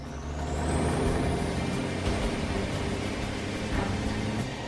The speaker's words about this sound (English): The tanker is given clearance and pulls away onto the tarmac.